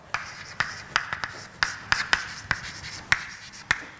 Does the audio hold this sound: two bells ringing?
no